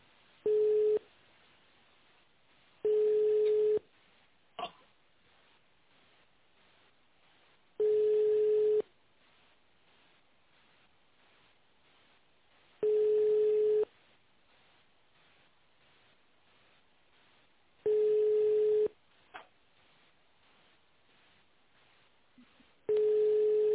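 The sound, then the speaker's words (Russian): Ringback tone on a phone line as a call transferred to a company's tender department rings unanswered: six long, steady, mid-pitched tones with quiet gaps between them and faint clicks in a couple of the pauses. “вернулся звоночек, да? Там, наверное, трубку не взяли.”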